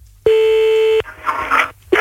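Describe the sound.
Telephone call being dialed: a steady, sustained line tone lasts under a second, then a few short crackly bursts of noise follow before another tone begins.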